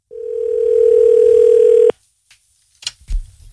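A telephone dial tone sounds as a call is placed: a steady, low-pitched hum holds for about two seconds, then cuts off abruptly, followed by a few faint clicks.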